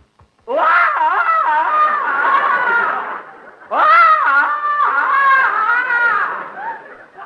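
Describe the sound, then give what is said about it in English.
A man loudly imitates a jungle yell: two long, warbling, yodel-like calls with rapid pitch breaks, each a few seconds long with a short gap between them, alone without other voices. “Go on, Tarzan, give the yell.”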